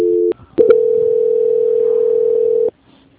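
A telephone line tone during a call transfer. A short tone is followed by a brief gap with clicks, then one steady, loud tone holds for about two seconds before cutting off abruptly.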